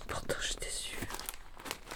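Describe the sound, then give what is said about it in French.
A sheet of draft paper is handled, giving soft, close crinkling and rustling in quick irregular bursts over about two seconds. “C'est une feuille, tu vois, de brouillon, hein.”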